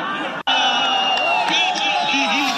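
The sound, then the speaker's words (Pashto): Cricket fans shout and cheer at the central stadium in Kunar during the final of a tournament. A loud, dense mix of high yells and whoops runs throughout, after one short silent gap near the start. “دا د کونړ په مرکزی لوبغالي کې د کرکټ پای ته رسیدلو سیالي او ته د راغلو مینوالو د خوخی او د خپلو لوبډلو د هڅولو لپاره د چغو او چکچکو غوونه دي.”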